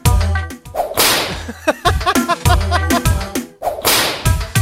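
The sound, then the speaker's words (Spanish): Sharp whip cracks used as a beat element in a song, many crisp snaps repeating in a steady rhythm over loud, bass-heavy music. “el látigo de esta canción suena como el que tiro yo, ¿no?”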